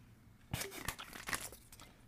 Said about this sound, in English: you should be able to tell based off of my slurps